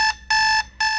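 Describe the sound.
An alarm clock beeps in three loud, steady electronic bursts with a bright, high-pitched tone and short gaps between them. No voices are heard.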